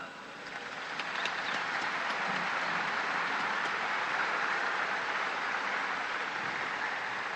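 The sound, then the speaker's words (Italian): Applause from a crowd greeting a newly beatified priest at a religious ceremony, a dense steady patter of clapping that swells in over the first second and then holds evenly loud with no speech. “Un applauso al nuovo Beato.”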